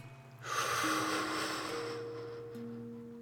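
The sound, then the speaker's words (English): One deep, slow breath during a calming relaxation exercise comes as a soft, airy rush that rises quickly and then gently tapers off, with faint steady sustained tones underneath. “So let's breathe in deeply.”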